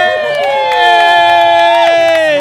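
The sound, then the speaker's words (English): A live comedy show audience cheers and applauds, with loud whoops and high yells sliding over a steady patter of clapping. “Give it up for Shelby and EJ!”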